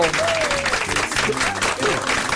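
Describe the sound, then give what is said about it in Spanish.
Applause celebrating a couple's 45th wedding anniversary: dense, continuous clapping at an even level throughout, with a voice talking over it. “¡Un aplauso!”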